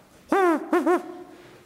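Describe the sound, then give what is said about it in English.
Barred owl hooting in an urban mall parking lot on a holiday evening: one drawn-out hoot, then two quick hoots close together, each rising and falling in pitch, clear and fairly loud. “Totally out of place in the urban setting, a barred owl called out,”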